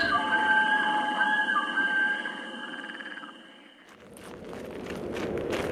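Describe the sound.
Footsteps of people walking on the soft ground of a mountain path: a steady, muffled shuffle of steps that grows denser toward the end, with a sustained tonal croaking in the first half.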